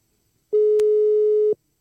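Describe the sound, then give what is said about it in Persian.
A telephone tone heard while calling back after a dropped call: a single flat, steady beep lasting about one second, loud and alone in silence. “الو، مثل اینکه ما صدای ما قطع شد. دوباره زنگ بزنیم به آقای مهینی ببینیم”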